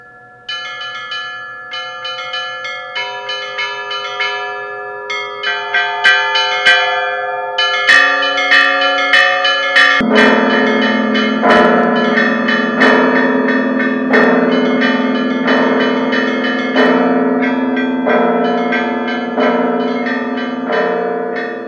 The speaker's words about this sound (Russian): Колокола, как самый добрый знак, затрезвонили на новой колокольне